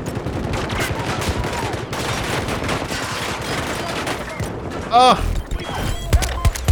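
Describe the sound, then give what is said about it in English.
Gunfire in a video game battle where a squad fires on a Jeep: dense, rattling bursts of shots run almost without pause, with a sharp, loud crack near the end. “there was like 10 of us shooting at that Jeep, and we didn't kill all those guys.”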